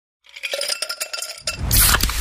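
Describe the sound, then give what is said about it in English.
Pepsi Zero Sugar cola is poured and fizzes. A few light, glassy clinks and taps come first, then give way to a sudden, loud, bright hiss of carbonation that fills the rest. “You hear that? That's the sound of Pepsi Zero Sugar, the better tasting, more refreshing Zero Sugar Cola.”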